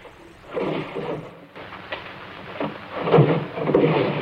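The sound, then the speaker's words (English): Desk drawers are pulled open and searched through, with a few soft sliding and knocking bursts and continuous rustling in between. No voices are heard. “Dwight runs up to his room and begins searching through the drawers in a desk”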